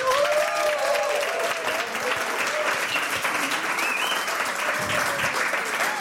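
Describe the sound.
A studio audience gives loud, steady applause, and a few cheers ring out over the clapping early on. The sustained clapping holds an even level until the end.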